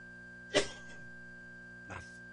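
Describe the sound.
A cough with the throat catching: one sharp, loud burst that trails off, then a second, fainter cough a moment later, with no talk around them.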